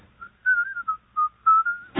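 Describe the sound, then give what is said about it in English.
A person whistles a short tune alone, clear mid-pitched notes in a few connected melodic phrases with brief gaps, ending with a quick noisy burst. “Forget your trouble, try to be just like the cheerful chickadee. And whistle while you work.”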